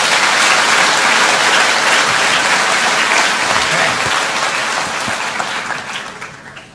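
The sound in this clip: Loud, dense applause from an audience welcoming a speaker on stage, a continuous wash of clapping that holds steady for several seconds, then thins and fades at the end.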